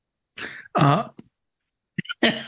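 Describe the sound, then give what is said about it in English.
A person coughs and clears their throat after choking on saliva, giving a few rough coughs in two bursts separated by a pause. “Excuse me. Oh man, I just choked out my own saliva while I started to talk.”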